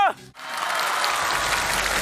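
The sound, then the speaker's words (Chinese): Audience applause at a live acrobatics show: dense, steady clapping that swells quickly and holds at an even level, after a brief voice at the very start. “战斗开始，谢谢掌声。”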